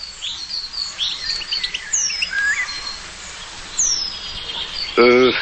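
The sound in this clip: A played recording of Eurasian penduline tit song: thin, high, delicate chirps and short descending whistles over a steady hiss. A voice cuts in briefly at the end.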